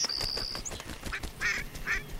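Young ducks, recently grown from ducklings, quacking in a few short, nasal calls spread across two seconds, with a thin high whistle-like tone at the start.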